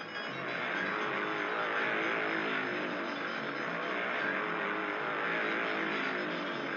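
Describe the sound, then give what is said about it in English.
Souped-up speedway motorcycles race in a training session before the 1968 season. Their engines make a continuous loud, buzzing roar that swells slightly and eases without a break. “Training sessions like this were taking place all over the country as the daring young men on their souped-up machines tried to hit top form before the starting tapes launched them into the 1968 Speedway season.”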